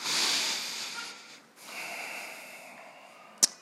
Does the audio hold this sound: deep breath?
yes